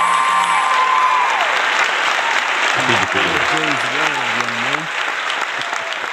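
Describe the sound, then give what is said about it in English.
Audience applause welcoming a guest onto a show: steady, loud clapping fills the whole stretch, and a voice rises briefly over it in the second half. “Ladies and gentlemen, please put your hands together and help me to welcome Peter Samuelson!”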